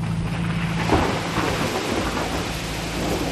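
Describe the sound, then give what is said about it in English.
A sudden jungle rain shower, heard from a boat on a jungle river: a loud, steady hiss of pouring rain with a low thunder rumble beneath it, constant throughout and without voices. “My God, everything's getting soaked. These jungle rains, they are sudden, huh?”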